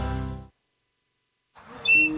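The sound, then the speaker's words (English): A bird chirps in thin, high whistling notes, a short burst of a few calls arriving after about a second of silence. “Mom, come look, there's a bird.”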